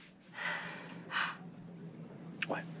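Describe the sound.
A woman's gasp as she turns to a window, voiced in imitation: two soft, airy breath intakes followed by a short, high vocal catch.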